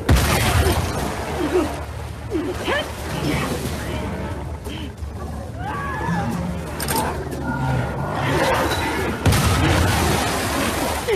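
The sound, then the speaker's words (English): Battle sounds from The Last of Us Part 2 as Abby fights the Rat King, a giant mutated monster, and its minion: a loud, dense, continuous din of combat noise with repeated sharp bursts throughout. “Here we are with the character Abby fighting against one of the hardest enemies in the game, a giant mutated monster along with his minion, the Rat King.”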